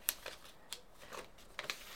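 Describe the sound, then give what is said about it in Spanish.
Sheets of paper being folded into a paper airplane: a few soft, crisp crinkles and rustling snaps, faint and brief, with quiet pauses between handling sounds. “justo tengo un papel aquí. Que hagas un avión con papel.”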